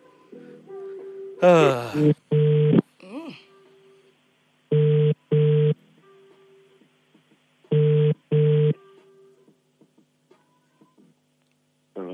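A telephone call is dialled and rings out: a short warbling connection tone, then three double rings, each pair of steady tones separated by near silence with a faint hum.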